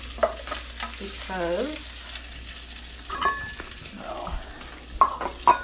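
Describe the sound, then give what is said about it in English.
Browned meat is scraped and lifted out of a sizzling skillet: a steady frying hiss, scraping strokes of a utensil against the pan, and a few sharp metallic clinks near the end. “I'm gonna take all the meat out of the skillet, set it aside for now,”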